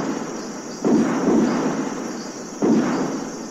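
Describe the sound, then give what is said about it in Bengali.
Gunshots ring out in the darkness near a grazing field: two sharp, heavy reports, each followed by a long rumbling tail, over a steady faint high tone. “এই সব ভাবছি হঠাৎ শুনতে পেলাম গুলির শব্দ।”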